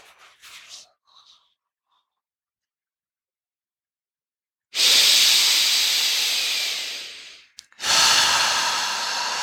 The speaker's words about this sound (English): the strongest and deepest exhales you've taken. Force it.